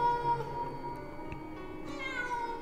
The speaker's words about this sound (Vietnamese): Là tiếng con mèo rừng hay là mèo nhà thì chẳng biết, thế nhưng tiếng kêu của nó kêu lên ghê rợn lắm.